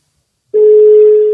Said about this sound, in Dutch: Oké, zullen we dat eens voorleggen? Ja. Dan gaan we even bellen.